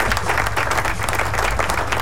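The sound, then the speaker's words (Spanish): Applause from many hands, dense and steady, fills the entire stretch at an even level with no pauses. “¡Aplausos! ¿Dónde están los aplausos?”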